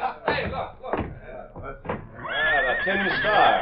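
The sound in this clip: A horse neighs in a long, high, quavering whinny in the second half, after a stretch of people talking.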